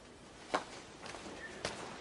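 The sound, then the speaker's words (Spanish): Footsteps cross a monastery courtyard, a few soft, evenly spaced steps that stay faint and quiet over a hushed background. “Cristian camina por el patio hacia la puerta. Los demás le siguen.”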